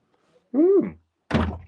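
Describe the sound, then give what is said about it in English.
A front door is answered for a delivery: a brief tonal sound is followed by a solid, low thunk from the door. “Yes, live action scenes here as I answer the door. 2 seconds, I have a delivery.”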